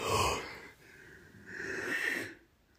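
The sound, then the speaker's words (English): A woman yawns, faint and breathy: a rough, airy intake swells, eases briefly, then a drawn-out, softly voiced exhale rises and fades away. “She just yawned.”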